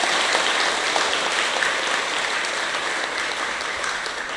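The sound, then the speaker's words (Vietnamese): Loud audience applause at a talk on the Buddha's teachings: a dense, sustained wash of clapping from a large crowd that holds steady and eases off slightly toward the end. “Nếu quý vị quan hệ với niềm tin đó trên nền tảng lời Phật dạy, hãy cho một làn vỗ tay thật lớn để khích lệ chung.”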